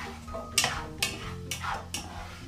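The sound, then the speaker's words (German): A spoon stirs carrots in a soup pot with butter, giving four evenly spaced scraping clinks against the pot. The strokes are quiet, with a faint background hum between them. “Letzte Karotte in den Topf. Mal alles umrühren.”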